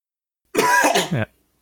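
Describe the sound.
A host coughs and clears the throat in one harsh, rough burst lasting under a second, followed by quiet.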